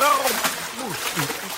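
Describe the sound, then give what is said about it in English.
Water splashing and sloshing as a character flails in a chilly river in panic, a busy, churning spatter heard under a voice that keeps talking. “So Humphrey walked out into the river. Ooh, it's a bit chilly. Once he could no longer stand up, he began to splash around in a panic.”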